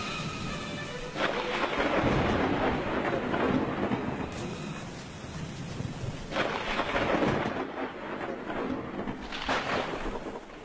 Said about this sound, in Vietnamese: Mưa gió sấm sét cứ đì đoàng, bao phủ tất cả.